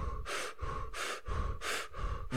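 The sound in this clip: Rapid, forceful breathing in and out as a person demonstrates a breathwork technique done lying down under a tent-like shelter. Strong, breathy bursts repeat in a steady rhythm over a few cycles, with no talking.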